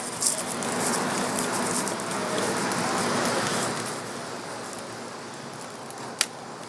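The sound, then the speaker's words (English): Charcoal crackling as it burns in a grill with an exhaust flue, a dense, steady crackle and hiss that is fuller through the first half, eases later, and ends with one sharp pop near the close. “hear that nice crackling going on? Sounds like an open campfire, doesn't it?”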